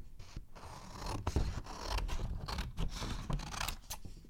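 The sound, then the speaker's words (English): Scissors cut through a paper drawing along drawn lines, splitting it into pieces for an art project: continuous crisp snipping and scraping with uneven rhythm, heard alone without talk. “Ooh, cutting the drawing. It's not messing it up, we're just turning it into something new.”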